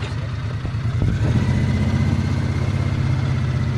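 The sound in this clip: Steady engine rumble from a utility vehicle with a truck-like frame and hydroformed steel rails, running at the start of a test drive. A low drone grows slightly louder after the first second and then holds steady, with no talk.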